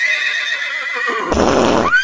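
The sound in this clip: A parade horse whinnies in a long, high, wavering neigh that gives way to a loud, breathy snort near the end, heard alone without voices.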